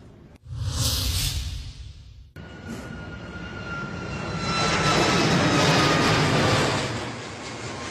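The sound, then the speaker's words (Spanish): Airplanes arriving at and departing from the airport roar above a rooftop in central Lisbon. The jet noise is a steady, broad rumble that swells louder midway through and holds with no voices. “El ruido es inconfundible. Desde esta azotea, en el corazón de Lisboa, se puede oír cada avión que llega y sale del aeropuerto de la capital portuguesa.”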